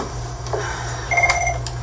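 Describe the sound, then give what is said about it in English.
A telephone rings with a brief electronic warbling tone lasting about half a second, fairly faint above a low, steady hum. “pick up the phone, just.”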